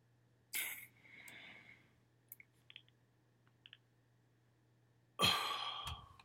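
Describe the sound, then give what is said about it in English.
An asthma inhaler fires with a sharp puff of spray, followed by a long, deep inhaled breath. A few faint clicks come after, then a second loud, breathy burst at the end. “I'm about to use my inhaler. Just take a listen.”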